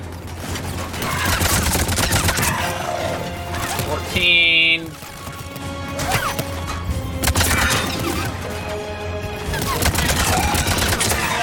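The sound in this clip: Rapid gunfire in a video game, with many sharp shots crackling in quick bursts over a dense, noisy background, and a brief tonal blip in the middle.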